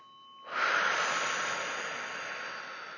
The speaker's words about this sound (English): I will invite you to take a deep breath.